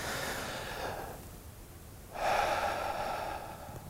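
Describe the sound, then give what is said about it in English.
Deep breathing, with a long airy inhale followed after a short pause by a louder, breathy exhale during a group prayer moment, heard alone with no talking. “Now with me, will you take just a deep breath?”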